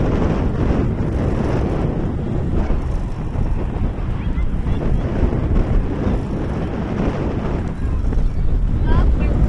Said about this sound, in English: Yeah, it's kind of breezy all of a sudden. Yeah, I'm still trying to record, but I think I'm just going to have to hack this part out with all the wind.